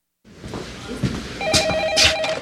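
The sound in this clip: A telephone rings in a scene from the film Alex Cross, as a killer calls the detective to taunt him; a trilling electronic ring cuts in over low background sound and repeats briefly.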